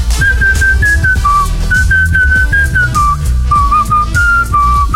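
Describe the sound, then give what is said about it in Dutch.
A person whistles a song tune loudly and clearly, carrying a melody of sustained, slightly wavering notes that step up and down in pitch above a steady low backing. “Ik ga het snel nog even fluiten.”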